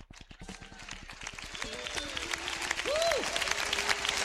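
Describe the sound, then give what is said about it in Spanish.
An audience claps in a fast, steady rhythm, with many sharp claps and voices calling out over them. The clapping grows gradually louder toward the end. “Aleluya, levanta ese aplauso más fuerte al Señor.”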